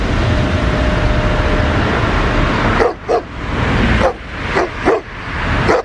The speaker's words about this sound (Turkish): Sabah işe gitmek için evden çıkan bir kişi otoparkta başıboş sokak köpekleriyle karşılaştı.